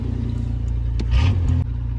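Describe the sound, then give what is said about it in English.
A car engine that is idling high gives a steady low rumble, then swells in one short rev as the gas pedal is tapped before it settles back to idle. “It seems like it's idling high. Let me tap the gas, see if this thing will chill out.”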